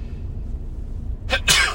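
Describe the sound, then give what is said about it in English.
A sneeze bursts out near the end of an otherwise quiet stretch of low background hum, a sharp breathy blast in two quick parts. “What other podcast has live sneezes? I ask you.”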